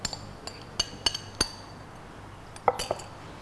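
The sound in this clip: Spoon clinking against a pot as ground pork is stirred into boiling soy milk: a series of sharp, bright metallic clinks at irregular intervals, fairly faint, with no talk.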